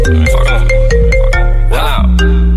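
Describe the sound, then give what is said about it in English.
A phone rings from an unknown number with a loud electronic ringtone melody of stepped, bright tones that repeat in a quick pattern. “Wait, hold on. Who the fuck is on my line this time? Unknown number caller, probably my P.O., so I ain't gonna decline this time.”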